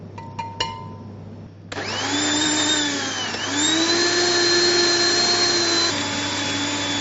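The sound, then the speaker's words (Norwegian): A blender whirs into motion after a few faint clicks, blending a dish: a loud, steady motor whine that dips briefly in pitch, recovers, and eases slightly lower toward the end. “Så nå finner jeg en blender, og så skal vi, skal vi kjøre den her til en fin rett.”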